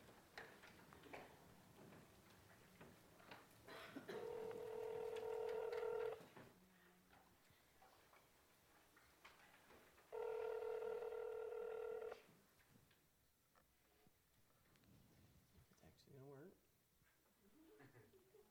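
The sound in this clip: Telephone line tones sound as a call is placed to a wife. Two sustained electronic tones of about two seconds each are separated by a pause, and people talk before, between and after them.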